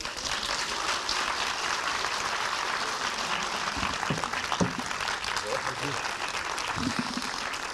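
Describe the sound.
An audience gives warm applause to welcome a speaker, with sustained, dense clapping throughout and scattered voices rising briefly above it.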